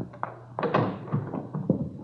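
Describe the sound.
Someone knocks on a front door with a few hollow wooden thuds in an uneven rhythm. The knocks are moderately loud and there is no talking.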